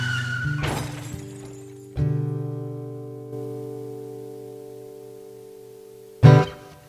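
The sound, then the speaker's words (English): A crash sound effect with shattering glass: an opening smash and splintering, then ringing, sustained tones that slowly fade, and a final sharp hit near the end. “Uh-oh, there's another Jamestown crash.”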